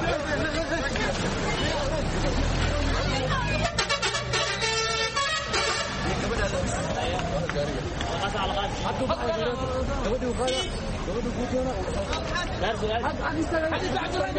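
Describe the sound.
Crowd chatter and car horns at a busy bus station in Nairobi's Islii neighbourhood, where travellers board for Garissa, Wajir and Mandera. A dense, continuous babble of voices fills the scene, with horns honking over it.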